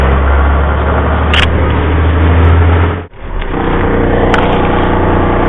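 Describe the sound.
A personal car drives home on a 20-mile trip, giving a loud, steady low engine and road drone heard from inside. The drone dips briefly near the middle before resuming at the same level, with no talk.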